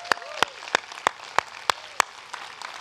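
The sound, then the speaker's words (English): A church audience claps in praise: seven sharp, evenly spaced claps land in a steady beat, followed by a couple of fainter ones, over a quiet background. “Come on, can we just make some noise? If you've been rescued, can you give him about 5 seconds of praise?”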